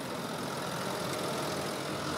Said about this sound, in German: Christians Sohn Paul, 11 Jahre alt, fährt den Traktor.